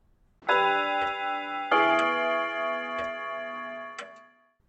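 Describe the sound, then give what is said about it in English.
A clock ticks in crisp, regular beats about once a second, layered over a sustained, ringing tonal sound that starts twice and fades out near the end. “Clock number one.”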